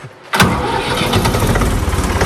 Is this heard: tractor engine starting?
yes